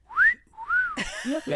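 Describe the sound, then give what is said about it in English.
A voice imitates a badly designed personal safety whistle with two arched, warbling whistled notes, then a short squeaky, sputtering flourish. “He invented the first rape whistle, but it sounded like this.”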